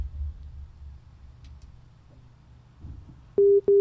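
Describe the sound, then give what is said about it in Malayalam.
Telephone line tone as an incoming call comes through: two loud, steady mid-pitched beeps near the end, the second cut short, following low background rumble. “വീണ്ടും ഒരു call ഉണ്ട്, ആ ഒരു call എടുത്തോളൂ”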